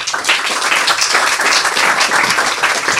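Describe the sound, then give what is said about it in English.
Applause from an audience welcoming an author to a reading: dense, steady clapping of many hands, loud and continuous throughout, with no voices standing out. “Let's hear some welcome sounds for our next author, Beatrice Altieri.”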